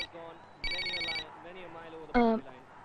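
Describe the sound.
A telephone rings with a bright, high electronic trill lasting about half a second, while voices and a low hum continue around it.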